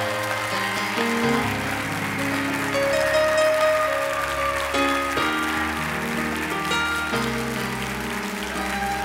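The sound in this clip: Applause from an audience during an evening church service as a guest preacher is welcomed. Sustained, steady clapping runs throughout over shifting instrumental chords.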